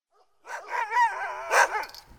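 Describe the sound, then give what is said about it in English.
Sled dogs vocalize at a twenty-dog kennel overlooking the Koyukuk River in Alaska, giving a couple of drawn-out, wavering yelps or howls with two louder surges, heard alone with no talk. “77-year-old Wilson Sam has 20 dogs in his kennel overlooking the Koyukuk River. We keep them back there, kind of close to the house where we can keep an eye on them.”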